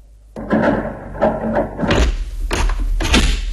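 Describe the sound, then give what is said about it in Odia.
Door being closed: a few heavy thuds and knocks in the second half, after a stretch of steadier sound, loud and without talk. “Okay, ଆଚ୍ଛା ମୁଁ ଆସୁଛି, ଆପଣ କବାଟ ବନ୍ଦ କରନ୍ତୁ।”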